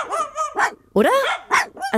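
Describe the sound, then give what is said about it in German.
Two dogs yapping in short, high bursts while playing on the street, a few sharp barks with a person briefly speaking between them. “Also, die beiden Kläffer da unten, ob die sich streiten? Oder nee, Moment. Die spielen einfach nur.”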